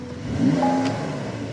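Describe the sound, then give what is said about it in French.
A flat-six car engine revs in one brief burst, a mid-pitched mechanical growl that swells and then settles to a steady hum, with no talk over it. “si, ça, c'est un flat 6. Ça, c'est un son de flat 6.”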